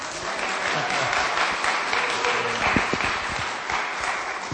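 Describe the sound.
Audience applause welcoming a speaker onto the stage: dense, steady clapping from many hands that holds an even loudness for about four and a half seconds.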